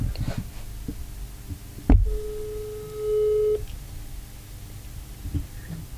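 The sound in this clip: A telephone ringing tone sounds while calling a friend: a sharp click, then a single steady, mid-pitched tone holding for about a second and a half before cutting off, over low background noise.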